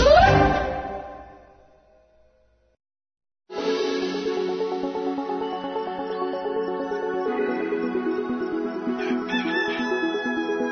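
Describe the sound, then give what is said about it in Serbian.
A rooster crows loudly at the start, its call fading out over about two seconds. After a short silence, a long, steady tonal sound rich in harmonics follows and continues to the end. “Da, kad od kukuriče, onda se mi odjavljamo.”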